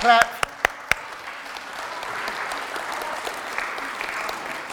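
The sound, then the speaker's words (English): Audience applause breaks out after a speaker's call, beginning with a few sharp separate claps and settling into a steady, moderately loud patter of many hands that carries on evenly without voices. “let's give Nate a clap”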